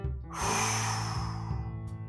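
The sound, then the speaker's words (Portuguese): A single deep breath during a guided breathing and meditation exercise: a soft, airy rush of breath lasting about a second and a half, heard alone without talk. “A seguir, inspira e expira.”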